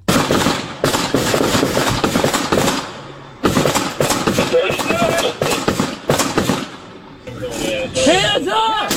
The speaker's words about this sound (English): Now the boys come. Now these are all police officers firing into the SUV.